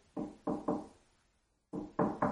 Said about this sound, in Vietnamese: tôi chợt nghe có tiếng gõ cửa.